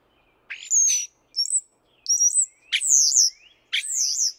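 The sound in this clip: A European starling calls in five clear phrases of high, slurred whistles, each a bright sweep that bends sharply in pitch, loud and alone with short pauses between them.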